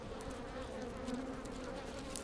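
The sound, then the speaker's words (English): Native Japanese honeybees buzzing at their hive in a hollow tree, a steady, dense, low drone of many wings that stays even throughout, alone with no talk. “These two are honeybees. They made their hive in a hollow tree.”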